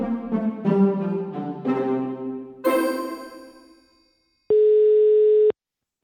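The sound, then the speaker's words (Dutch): A telephone ringback tone sounds while a call to someone is placed: one steady, mid-pitched electronic beep lasting about a second, alone after a few bright, fading musical notes. “Ik dacht, ik ga Martin even bellen.”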